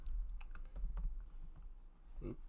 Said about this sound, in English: Just type it. I just type in a stay tuned or whatever.